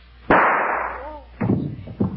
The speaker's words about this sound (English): Shot herself.